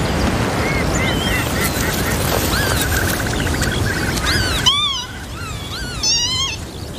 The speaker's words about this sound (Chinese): 一对凤头麦鸡正辛勤地照料着两只雏鸟，它们习惯于在地面营巢